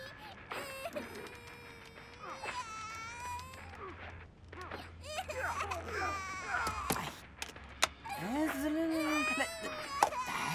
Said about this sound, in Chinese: 行了行了，你别哭了啊！